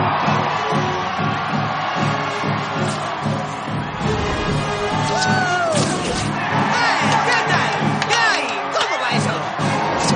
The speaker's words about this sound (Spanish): Todos aplauden y vitorean al héroe, que llega descolgándose por sus telas de araña y saluda como una estrella.